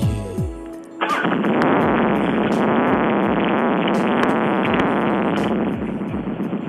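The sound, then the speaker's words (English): A 2001 Dyna Super Glide motorcycle engine running: a loud, thick, continuous rumble that kicks in abruptly and holds a lumpy, throbbing idle, easing slightly near the end. “And now we'll fire up my bike, which is a 2001, well, you can leave that running, baby. 2001 Dyna Super Glide.”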